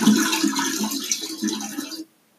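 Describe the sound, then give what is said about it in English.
A toilet flushes during a Supreme Court hearing held by teleconference. Rushing water roars steadily for about two seconds, then cuts off abruptly into silence. “So then he keeps flushing.”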